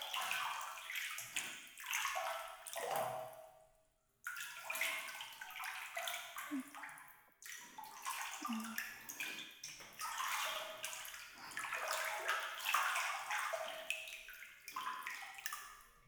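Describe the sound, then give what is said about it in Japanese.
Hot water splashes and pours over someone's shoulders in a bath, in repeated uneven gushes with brief pauses between them. The sound is soft and close, with gentle trickling and splashing. “時々肩にお湯かけてあげる。”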